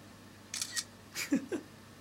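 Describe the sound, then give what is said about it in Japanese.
Camera shutter clicks as a photo is taken, a few short crisp snaps spaced unevenly over about a second against a quiet background. “写真撮って セキさんにお送りするんですか。”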